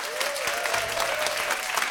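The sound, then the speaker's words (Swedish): An audience applauds a backing band at a live music event, a steady, dense patter of clapping hands at moderate volume with a faint sustained tone running underneath. “Applåder från honom och applåder för gänget som backar upp här. Bandet. Applåder!”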